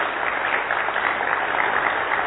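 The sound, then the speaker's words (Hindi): An audience claps in a hall, a dense, steady patter of many hands at an even, fairly loud level throughout, with no voices over it. “तो अपने लिए तालियां बजाओ।”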